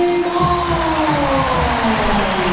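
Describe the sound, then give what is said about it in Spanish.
Stadium crowd ovation and applause for footballer Rodrigo De Paul as he is announced, a loud, sustained roar of cheering that stays steady from start to finish. “Buena ovación para De Paul, buen aplauso.”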